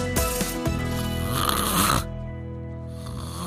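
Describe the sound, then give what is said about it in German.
Loud human snoring: a rasping, buzzing snore fills the first two seconds, then cuts off and leaves a softer breathy tone. “Na, kommt euch das Geräusch bekannt vor? Obwohl, wahrscheinlich kennt den Sound eher die Person, die neben euch im Bett liegt und euch ständig anstupst.”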